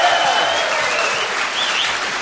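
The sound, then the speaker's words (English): Audience applause from bowlers at a live country show: a dense, steady patter of clapping hands that holds at an even level throughout the short stretch. “Let's have the bowlers applaud now, please. See? Yeah. Listen to that, my friend. Bowlers, always welcome. Listen to that.”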